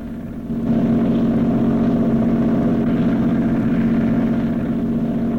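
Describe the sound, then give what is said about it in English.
A boat motor drones as the boat cruises across water: a constant low hum with a strong tonal note that swells within the first second, then holds even and loud. “Columbo's in the cockpit with Hollister as the boat cruises across the water.”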